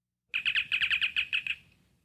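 A sci-fi communicator chirp: a quick run of bright, high, warbling electronic chirps packed into about a second, then trailing off quickly into quiet.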